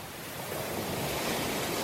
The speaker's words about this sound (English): Lovely waves on a gorgeous, sunny beach. Palm trees. You know, you can hear the birds there. It's nice and calm.